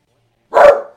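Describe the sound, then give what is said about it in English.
A dog gives a single loud, sharp bark that ends abruptly, heard alone against silence. “There's nothing there. Stop barking.”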